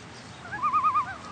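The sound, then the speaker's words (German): A strange bird calls from an old oak tree: four quick, wavering cooing notes in a steady run, with fainter notes just before and after, alone over a soft hiss. “Was ist das nur für ein eigenartiger Vogel?”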